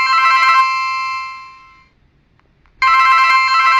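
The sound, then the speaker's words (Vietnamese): A telephone rings twice with a bright electronic tone. The first ring fades away into a short silence, then the second begins abruptly and loud, with no voices. “nhưng đột nhiên chuông điện thoại reo lên.”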